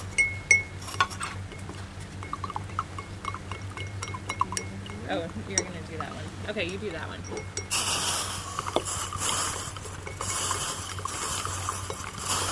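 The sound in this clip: Light clinks and scrapes of someone stirring a chilled urine mixture in a container as foam begins to form, faint and irregular beneath people talking, with a steady hiss entering in the second half.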